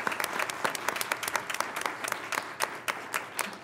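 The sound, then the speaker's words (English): An audience applauds artistic students being honored at a board meeting. Dense, lively clapping from many hands holds steady through a few seconds. “Let's just give them a hand.”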